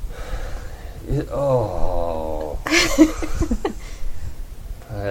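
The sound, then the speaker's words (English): An enormous yawn performed by a voice in character: a long, loud vocal moan whose pitch glides and wavers, followed by further drawn-out voiced sounds. “In character, Crash does another enormous yawn.”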